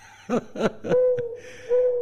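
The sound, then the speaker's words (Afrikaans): Owl hooting: three short, rough hoots in quick succession, followed by a longer, steady, mid-pitched hoot that fades and then returns briefly, heard alone without voices. “Is daar iemand wat nog bang is vir uile? Ah, sy, okay, net so 'n bietjie, net 'n uil net daar vater”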